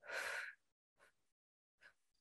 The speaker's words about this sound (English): We're going to do some deep breaths. All right. So in through the nose and then out through the mouth.